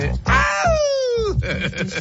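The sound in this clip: A voice imitates a pop singer's classic signature scream: a loud, sustained, tonal wail that slides steadily downward in pitch, framed by short vocal bursts before and after.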